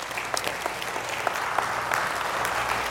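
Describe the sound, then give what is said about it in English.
Applause from a church audience: a dense, steady wash of many hands clapping for the full length, with a few sharper claps standing out and no talk over it. “Let's give the Lord a big round of applause.”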